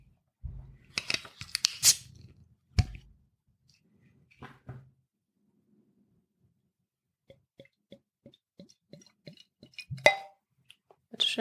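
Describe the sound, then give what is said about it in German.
A bottle of non-alcoholic beer brewed from water, barley malt and hops is opened: faint rustling, a sharp pop, then a run of quick, evenly spaced ticks and a brief hiss near the end. “Ja, dann mache ich die Flasche mal auf.”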